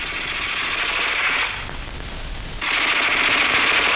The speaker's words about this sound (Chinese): 你听啊，那小歪把子声音多脆呀